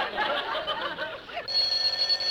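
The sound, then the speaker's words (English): A telephone rings in a radio comedy: after a stretch of murmuring noise, a steady, bright bell ring sounds alone near the end. “Now, who is that, I wonder? Hand me the phone, will you, Rochester, please?”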